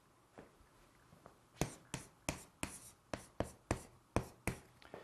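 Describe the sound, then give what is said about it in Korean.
A character is written by hand with a pen: a couple of faint scratches, then many crisp, quick strokes in an uneven rhythm. The strokes are quiet and heard alone. “정하다는 정, 제가 한번 써볼게요.”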